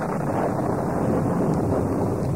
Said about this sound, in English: A terrible storm suddenly burst upon the advancing Philistines.